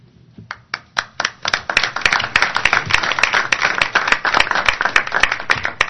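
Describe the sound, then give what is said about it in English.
Audience applause for a justice speaking at a court swearing-in ceremony: a few separate claps quickly build into loud, dense, sustained clapping. “Since you were kind enough to give me a hand before I even started speaking, maybe I shouldn't say anything.”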